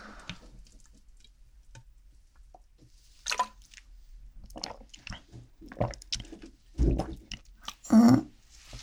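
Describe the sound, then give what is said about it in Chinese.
A person sips an odd-tasting drink, making sparse, faint, wet mouth sounds: small clicks, drips and squishy swallows spread across a few seconds of near quiet. “我感觉这东西怎么喝都会比较怪吧？对身体好吗？好吧，那我再喝喝。”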